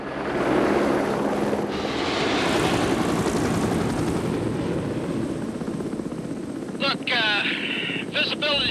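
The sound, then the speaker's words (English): Aircraft engine drone as a plane flies at night over dark, snow-capped mountains, a dense, loud rumble that holds level and unbroken for nearly nine seconds. “It circles round and then travels into the night. With its taillights flashing, it flies over vast, dark, snow-capped mountains. In the cockpit are Bob and the man he was talking to in the medical centre.”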